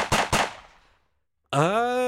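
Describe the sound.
Two gunshot sound effects crack out in quick succession, each a loud sharp blast with a long fading tail, followed by a pause and then a voice.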